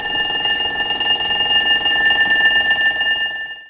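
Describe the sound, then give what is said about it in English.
A school bell rings loudly and steadily with a rapid, buzzing metallic pulse for over three seconds before cutting off and fading at the end. “So, what's that sound? Shout it out. A school bell.”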